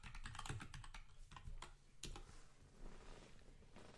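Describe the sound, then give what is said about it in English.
Rapid typing on a computer keyboard as a search is entered: many quick, crisp key clicks in uneven bursts, with a short pause partway through, alone without talk. “As soon as I typed in Zack Martin”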